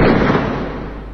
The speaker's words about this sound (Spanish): les dejo el sonido del disparo que van a escuchar ahora para que les quede grabado como un hermoso recuerdo para toda la vida.